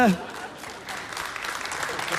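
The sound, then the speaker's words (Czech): Thin, lukewarm applause on a television show: scattered, soft clapping that swells a little after a brief lull, never reaching full strength. “Ano, i ten potlesk byl takový vlahý”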